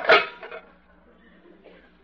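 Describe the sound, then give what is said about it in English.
Pots and pans clattering while dinner is being cooked: a sharp metallic clank opens, a softer knock follows, and the sound fades to a quiet tail before one faint click near the end. “Oh, cooking dinner.”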